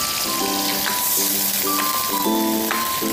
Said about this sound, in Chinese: 放入扇贝肉，翻炒，倒入料酒去腥，倒入料汁儿，